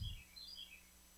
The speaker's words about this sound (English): We hear the little bird saying, yes, listen, listen, listen, inside,